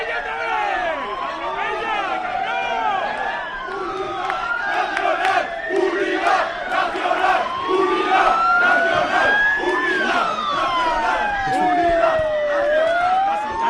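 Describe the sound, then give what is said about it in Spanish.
Street ambience at a large Madrid intersection: a crowd shouts and calls out while sirens wail, rising and falling again and again, loud and continuous. “Perdona, deja simplemente el sonido ambiente para que vean cómo suena Madrid en esa zona a esta hora.”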